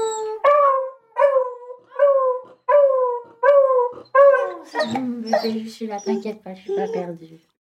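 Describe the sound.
A dog howls along with its owner, who sings a series of steady, sustained 'oh' notes. The dog's wavering howls overlap the repeated tones, and both are separated by short gaps.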